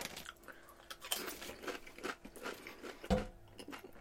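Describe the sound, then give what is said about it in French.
Pringles potato chips being eaten: a few crisp, brittle bites crack out among softer, faint chewing and crunching, with no talk. “Ça goûte donc bizarre, Pringles. J'ai jamais été un gros fan, moi, des chips Pringles, pour vrai.”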